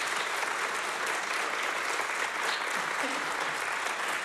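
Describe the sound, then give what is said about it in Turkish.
Audience applause at a live radio concert, a dense steady wash of clapping from a crowd, continuous and even in level throughout without pauses. “Bu kıymetli alkışlar devam etsin lütfen”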